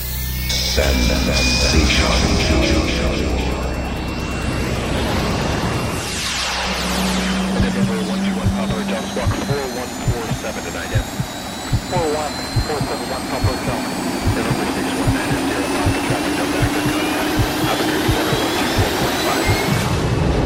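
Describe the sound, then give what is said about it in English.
Aircraft jet engines spool up for takeoff, a loud roaring whine with sweeping tones, then a pounding electronic dance beat enters while the engine hum continues underneath. “So please, fasten your seatbelts and prepare for takeoff.”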